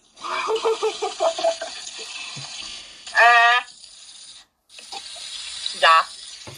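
Someone rinses her mouth at a sink: gurgling, pulsing splashes come first, then running water with short voiced sounds, and the flow cuts off briefly before resuming.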